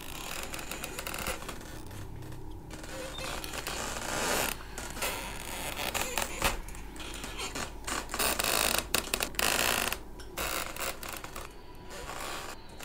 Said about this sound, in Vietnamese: Cánh cửa vẫn cứ nhúc nhích tì vào cái bản lề cót ca cót két.